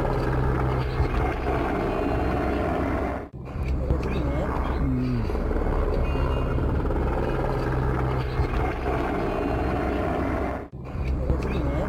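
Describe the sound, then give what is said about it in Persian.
A helicopter lands in a district centre, its rotor and engine giving a loud, steady droning roar that holds almost unbroken from start to finish. “برخی چرغوال‌ها نیز برای مدت کوتاه در مرکز ولسوالی نوسای فرود آمدند. ویدیویی را که از محل به افغانستان اینترنشنال ارسال شده با هم ببینیم.”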